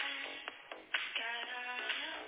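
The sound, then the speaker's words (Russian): A mobile phone rings with an incoming call, its melodic ringtone of repeated tonal notes sounding thin and tinny and playing faintly and steadily throughout. “Че звонит мне Виктория, это не понял.”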